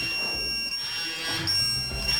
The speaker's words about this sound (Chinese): 好，43秒左右开始报警，你看这边的标数是25，另外一个也在响了，